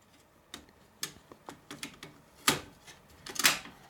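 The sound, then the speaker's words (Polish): Sharp plastic clicks and clacks as a cassette is inserted into a cassette player, a quick irregular series of mechanical knocks with louder clatter toward the end and no voices. “Naciskam, proszę Państwa, eject. Znaczy nie eject, tylko power. Eject. Wkładam, proszę Państwa, kasetę.”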